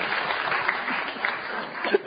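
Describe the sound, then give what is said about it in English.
Applause from an audience, a round of steady, dense clapping that holds at an even level for the whole two seconds with no voices standing out. “he receives a book token of this round of applause.”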